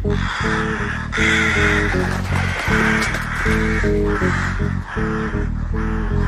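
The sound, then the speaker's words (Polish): Many crows caw over a cemetery, their loud, harsh calls repeating and overlapping in a dense, steady chorus for the whole clip. “I wtedy nad cmentarzem przeleciało, kracząc, ogromne stado wron.”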